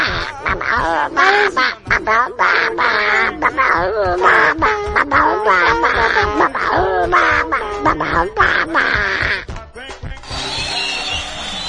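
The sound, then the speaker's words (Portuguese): Ducks quacking in a rapid, nearly continuous stream of loud, nasal calls that overlap throughout, then give way to a brief, different noise at the very end. “Vai contabilizando esses patos aí pra nem fugir.”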